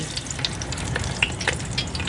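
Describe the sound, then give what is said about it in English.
Locusts deep frying in hot oil give a continuous, busy sizzle, dotted with many small sharp pops and crackles at a steady moderate level. “Well, this is one of my favourite ways to have them. It's just deep fried with just a tiny wee pinch of salt.”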